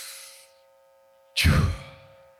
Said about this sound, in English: I need you to take a breath. Ready? Big, deep breath.